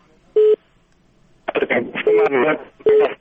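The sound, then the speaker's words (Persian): Steady telephone line beeps sound after a call is cut off. One short tone comes alone, and then a voice talks over two more identical beeps. “متاسفانه تلفن قطع”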